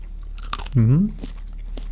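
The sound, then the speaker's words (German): Someone takes a small bite of a red chili pepper, making a few brief, crisp crunches. A short voiced hum sounds between them. “Ich würde mal in so eine rote beißen. Reinbeißen? Oh, reinbeißen, ist wirklich eine rote? Ja, kein großen Biss, aber so einen kleinen.”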